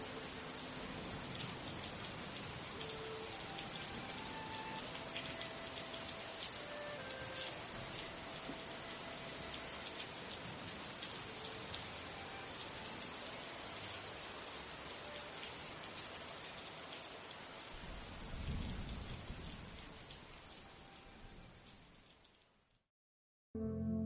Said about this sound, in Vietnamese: Bên ngoài trời vẫn mưa như trút.